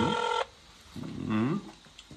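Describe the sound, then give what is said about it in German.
A brief electronic ringtone from a phone placing an outgoing video call: one bright, steady tone lasting under half a second, followed by a fainter, lower warbling sound. “Das ist bei dir in Spanien ist ein bisschen anderer Klingelton. Aber es ist jetzt mit Bild, rufst du da sogar.”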